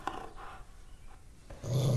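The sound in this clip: A dog gives a low, rumbling growl that swells near the end, following a few quieter snuffling sounds. The whole clip is faint.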